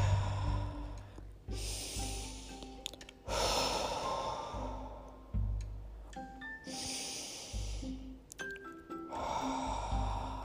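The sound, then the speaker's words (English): Slow, deep human breaths taken during a guided stillness exercise. A few long, soft airy inhales and exhales follow each other in an unhurried rhythm over a faint low steady tone. “Take some deep breaths.”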